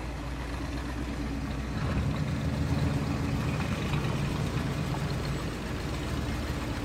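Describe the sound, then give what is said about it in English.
A car crawls slowly forward around a bend at the end of a road with a low, steady engine rumble and road noise that grows slightly louder early on and then holds even. “A moment later, the car crawls slowly forward, rounding a bend at the end of the road.”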